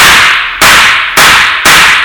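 Gunshots ring out in a radio drama: four loud, sharp cracks in quick, even succession, each trailing off in a brief decaying tail.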